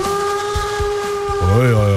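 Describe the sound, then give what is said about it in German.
A steam locomotive whistle gives a steady, piercing, multi-toned blast. Near the end its pitch bends upward and then back down. “Hast du uns heute eine Lokomotive mitgebracht oder was ist hier los?”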